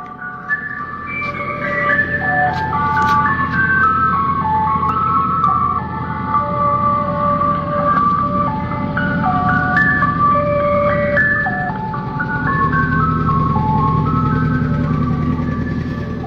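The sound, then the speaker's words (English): An ice cream truck jingle plays a bright, tinkly melody that loops continuously at a steady, fairly loud level, with no talking over it. “Tell me, should I go to the ice cream truck when I hear it?”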